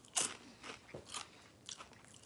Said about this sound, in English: It's weird. It's not really like any snack food I've tasted. Yeah, I'm keep eating them.